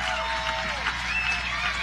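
Outdoor concert audience at Durham Central Park applauding after a set, a moderate, even patter of clapping mixed with crowd murmur.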